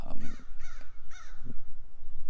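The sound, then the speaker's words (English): Crow cawing from the top of a tree: a few loud, harsh, raspy caws in an uneven rhythm, heard alone over a steady background hiss. “this crow is just crazy. Like, it's all the way at the top of the tree, all the way at the tippy top. Just making some noise.”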